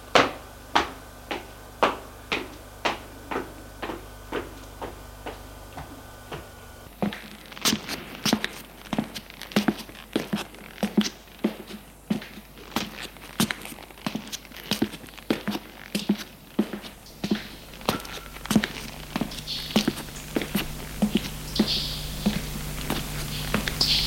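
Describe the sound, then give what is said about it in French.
Footsteps of a woman going down stairs fall in a steady, even rhythm throughout, many soft thuds over a constant low background hum that thickens partway through; no voices. “Elle a ouvert la porte, éclaire, ferme la porte, et descend les escaliers.”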